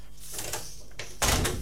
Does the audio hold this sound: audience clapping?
no